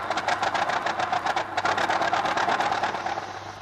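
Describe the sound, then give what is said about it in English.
An old Ford Model T car drives up, its engine giving a rapid, even chugging of many pulses over a low, steady hum, holding a constant level throughout. “she appeared with their father as he drove up in his old T-model Ford”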